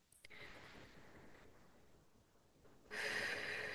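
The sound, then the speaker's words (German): Soft, airy exhalations through the mouth during a guided breathing exercise: one long breath out, then a quieter pause, then a louder, rushing exhale at the end. “Atme das alles mal aus, komplett durch den Mund.”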